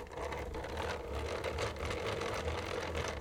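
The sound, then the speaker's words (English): Whirring, clicking mechanism of a hand-cranked sticker maker as its crank is turned, feeding paper through. Steady mechanical churning with fast repeated ticks over a low hum runs evenly throughout, with no talking. “Found a sticker maker. If you have a piece of paper that you want to turn into a sticker, you slide it into one end, and then you twist the crank.”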